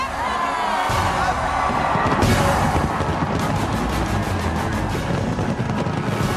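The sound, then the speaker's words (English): Nearly eight tons of New Year's fireworks explode over Sydney Harbour, Australia. Loud, dense bursts and crackling overlap in a continuous barrage, with sharper booms standing out briefly. “That's the sound of nearly 8 tons of fireworks exploding in 12 seconds over Sydney Harbour in Australia.”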